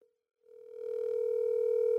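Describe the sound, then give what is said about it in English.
A telephone dial tone sounds while calling someone at home. After a short silence it comes in as one steady, continuous tone that swells up and then holds at an even level. “We're trying to call Max at home. He's not going to answer.”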